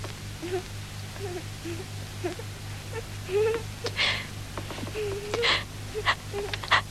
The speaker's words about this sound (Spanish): No llores, mi vida. No llores.